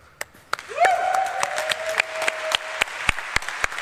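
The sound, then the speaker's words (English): Audience applause for the organizers and volunteers at an event. Light, scattered claps come as sharp separate hits rather than a dense ovation, with a thin sustained tone running through the middle. “I'd like to give an applause for organizers and volunteers and all people that let it happen.”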